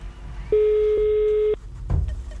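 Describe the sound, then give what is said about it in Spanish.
A telephone call tone sounds once as a number is dialed: a single steady beep lasting about a second over low background hiss, with a brief soft thump afterward. “y entonces empezamos a marcar y vemos.”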